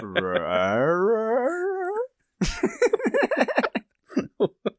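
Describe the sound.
A person imitates a dog's vocal inflection with a sustained, wavering whine-like tone that lasts about two seconds. After a short pause, ordinary talking follows.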